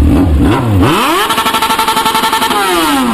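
A 1000cc motorcycle engine revs hard, its pitch sweeping sharply upward, then holding a loud, high, buzzing note with rapid pulsing before easing slightly near the end.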